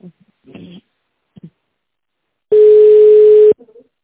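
A steady telephone line beep sounds while an office reception transfers a call: one flat, loud tone lasting about a second, preceded by a few faint, brief noises.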